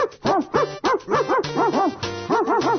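People at a live event imitating dogs barking, with many overlapping voiced woofs and yips in a quick, loud, rhythmic run that carries on steadily.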